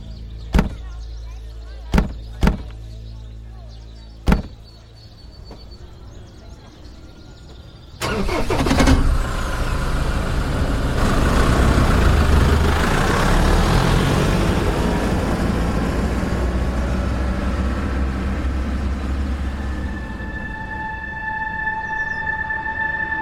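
Four sharp knocks come first, then a vehicle engine starts and settles into a steady, broad roar as it drives off, running on to the end.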